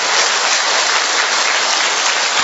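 Applause from an audience welcoming newcomers at a religious gathering: dense, loud, steady clapping that continues unbroken from start to finish.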